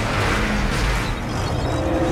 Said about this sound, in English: The convoy rolls past the building on the side opposite the window.